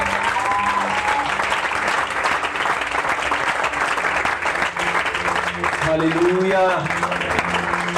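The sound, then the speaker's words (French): Congregation applause at a church worship service acclaiming the Lord's presence: dense, steady clapping that fills the whole stretch, with voices rising over it. “Est-ce que quelqu'un peut acclamer la présence du Seigneur”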